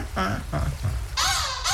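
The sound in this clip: Black-headed gull calls: a few harsh, nasal cries, with the final ones higher-pitched and louder than the earlier ones.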